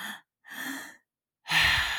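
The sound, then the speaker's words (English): Three-part yoga breathing: three airy breath sounds separated by short silences, the last one longest and loudest. “This is called a three-part breath if you're unfamiliar. But you inhale and fill up your stomach, inhale and fill up your lung area, and then you just exhale and dump it all out.”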